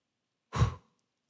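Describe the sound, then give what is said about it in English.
A single deep breath taken by a preacher mid-sermon: one short, soft, breathy exhale standing alone in a quiet pause. “I did that deep breath for two reasons.”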